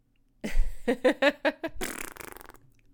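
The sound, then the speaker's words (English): A person imitates fart sounds with their voice. Several short, buzzing, sputtering bursts come first, then a longer, noisy, fluttering rasp that trails off. “Here is the sound of a fart.”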